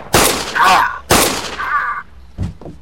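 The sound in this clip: Gunshots ring out in a tense crime drama scene: two loud, sharp blasts about a second apart, each trailed by a lingering tail, then a fainter burst near the end.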